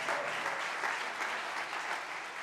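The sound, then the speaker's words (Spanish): An audience at a church sermon applauding with steady, dense clapping that holds an even level throughout. “Y un aplauso por esta palabra, vamos, vamos.”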